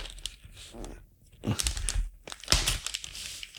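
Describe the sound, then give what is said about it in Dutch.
Crinkling and tearing of wrapping paper as a gift package is unwrapped: a few bursts of crackly, papery rustling, fairly faint and alone. “Ik ga het uitpakken.”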